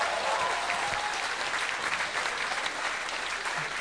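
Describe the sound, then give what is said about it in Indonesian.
Audience applause at a rock band concert at Planet Hollywood, a dense, even roar of many hands clapping that holds steady throughout without talk. “Jadi tepukan daripada anda adalah sebagai satu penghormatan kerana menjadikan semua ini berjaya, okey.”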